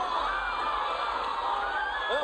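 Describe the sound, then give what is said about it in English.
A 1986 Mid-Atlantic Wrestling crowd cheers during an impromptu, unsanctioned match. The roar is loud and continuous, with shouts, yells and a whistle mixed in. “But the crowd are loving it. Crowd are going for this.”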